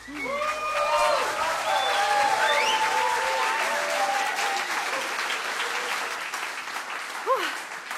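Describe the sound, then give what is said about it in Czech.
Audience applause at the end of a concert, dense and sustained clapping from a crowd, with brief whistles and cheers rising over it and slowly thinning toward the end. “Zatleskajte si ešte vy, prosím.”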